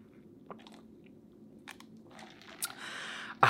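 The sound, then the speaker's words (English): Iced coffee being drunk: a few soft crunchy clicks of ice and sipping sounds over a quiet background, ending with a short, louder noisy burst. “Wow, delicious. I just love iced coffee in the spring.”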